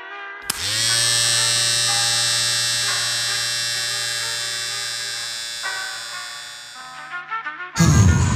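Electric clippers or a shaver buzz at a barbershop: a steady motor drone starts abruptly, holds for about seven seconds while easing slightly in loudness, then gives way to a brief rougher burst of noise at the end.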